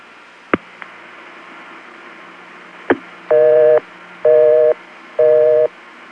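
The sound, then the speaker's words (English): Telephone busy signal on a line in the Beaufort 728 exchange, November 1974: three steady buzzing tone bursts in an even on-off rhythm, with a fourth starting at the end, preceded by a few sharp line clicks. “I found a number in Beaufort 728 that ended in the digits 11 that just happened to be busy.”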